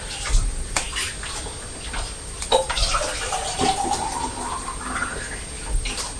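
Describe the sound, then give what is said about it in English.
Water poured from a kettle into a jug makes a steady, faint splashing stream whose gurgling tone rises in pitch as the jug fills, with no talk. “So I'm going to fill the jug with water from the kettle and let it cool”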